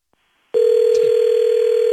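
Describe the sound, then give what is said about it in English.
A faint click, then a loud, steady telephone dial tone after a call is hung up, holding level without a break to the end. “Hello? Why are you hanging up on me?”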